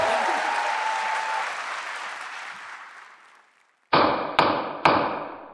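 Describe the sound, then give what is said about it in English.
A gavel strikes three times in quick succession, each a sharp, hard knock with a brief ring, following a stretch of applause that fades to silence. “This is the sound of a gavel. Judge Sean Hodgman rules that as all.”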